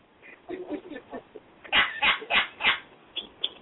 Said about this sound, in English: Yeah, my dog.